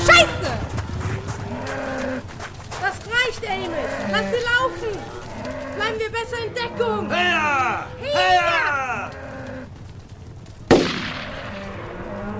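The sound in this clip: A herd of cattle stampedes with many loud bellowing moos over a constant heavy rumble, and a sudden sharp crack comes near the end.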